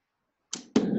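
An archery tag arrow is shot, two quick sounds in close succession: a brief sharp snap, then a louder, fuller burst that carries on to the end.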